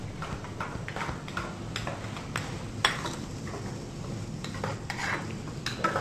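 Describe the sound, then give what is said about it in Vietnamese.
Stirring of pomelo peel with cooking oil in a pan: many irregular scrapes and light clinks of a utensil against the pan over a steady low rumble, with no voices. “Và trộn đều lên vài phút nữa để cho phần ăn này rút ráo vô trong cái phần bưởi.”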